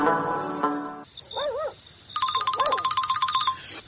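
A telephone rings with a sequence of electronic tones: a steady buzzy tone, then a high wavering beep, then rapid, repeated trilling rings that pulse quickly. The ringing is fairly loud, with no voices.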